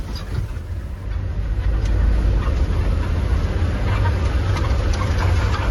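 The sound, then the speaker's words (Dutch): A bus carrying theatre gear rumbles along a road through a war-damaged landscape, with a heavy, steady low engine and road drone throughout as a voice talks over it. “De terugtocht voert door een gehavend landschap. Vadim, de chauffeur, maakt nog één tussenstop. Achter in de bus de theaterspullen.”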